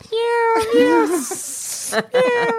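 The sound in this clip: A human voice imitates cats meowing: drawn-out, wavering high meows, a breathy hiss in the middle, then one more meow, loud and close together.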